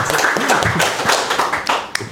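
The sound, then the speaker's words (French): Audience applause: a small group claps in a quick, irregular patter, with voices talking through it and a couple of crisp louder claps near the end. “tout le monde applaudit.”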